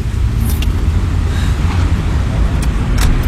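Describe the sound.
A taxi car pulls up: a loud, steady engine and road rumble fills the whole clip, with a few brief sharper sounds on top.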